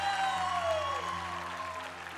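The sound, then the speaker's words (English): Audience applause welcoming a preacher to the stage at a church service. Steady, dense clapping runs for about two seconds at an even level, with a crowd sound underneath. “Could you stand to your feet with me? Let's put our hands together.”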